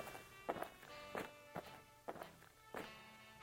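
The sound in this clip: Footsteps of someone walking over: a few faint, separate steps spaced unevenly, each a soft tap over a quiet humming background.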